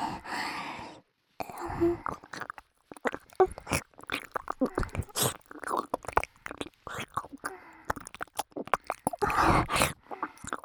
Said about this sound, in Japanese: 王様のお耳おいしい。もっと舐めさせて。